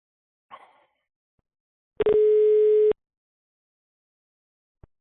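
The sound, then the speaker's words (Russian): A single ringback tone sounds while a phone call is placed: a steady, mid-pitched buzzing hum lasting about a second. A brief rustle comes before it and a sharp click follows. “Ребят, еще раз ему набираю, тихо. Все, не шумим, ребят.”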